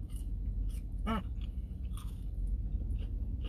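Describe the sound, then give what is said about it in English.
Crunchy biting and chewing of fried onion rings from a fast-food stand. One sharp, crisp crunch stands out near the middle among softer chewing sounds over a steady low background rumble. “Okay, you eat the fries and I'll eat the onion rings then.”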